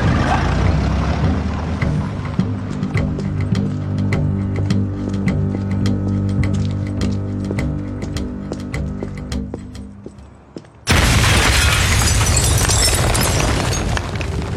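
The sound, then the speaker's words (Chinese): A bomb goes off at a general's mansion door in the TV series Peaky Blinders. After about ten seconds of music with rhythmic percussion, a sudden loud blast erupts and roars on without break to the end. “潜入拉塞尔将军的豪宅附近，在他家门口安装了炸弹。”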